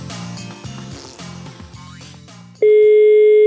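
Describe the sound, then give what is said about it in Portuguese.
Telephone ringing tone on an outgoing call: a loud, steady electronic tone begins abruptly after a stretch of busy mixed sound and holds unbroken to the end. “Tô ligado novo aqui. Vai tá chamando aí.”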